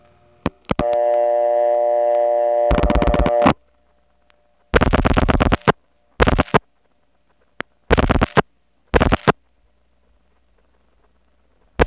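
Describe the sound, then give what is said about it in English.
Telephone switching sounds as an ESS cut-through is followed by a crossbar 5 pulsing into a PBX: clicks and a steady tone, then several bursts of rapid mechanical pulsing separated by silences, and a final click. “which is the ESS cut-through followed by the crossbar 5 picking up the line link pulsing arrangement. Then there's a silence while the 4 digits are dialed out, and then finally, ta-tick, it goes into the PBX.”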